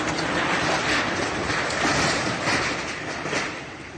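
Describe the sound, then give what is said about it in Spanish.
A university building in Kharkiv collapses after an attack, producing a loud, dense, continuous roaring rumble that holds steady and then eases off toward the end. “Uno de los objetivos fue la universidad. Así sonaba esta mañana mientras se derrumbaba.”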